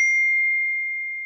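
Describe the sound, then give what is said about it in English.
A phone's text message notification: a single clear, high electronic ding that rings steadily and slowly fades. “Hey. It sounds like this when you get a text message from me.”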